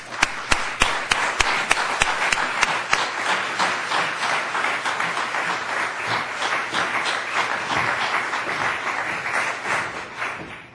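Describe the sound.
Audience applause welcoming a speaker at a National Assembly library event: dense, steady clapping with a few sharper claps at the start, sustained for about eleven seconds and easing slightly at the end.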